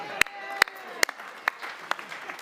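Hand claps from an audience welcoming someone on stage at a church gathering: a handful of sharp, evenly spaced claps with fainter ones between, over a soft background murmur.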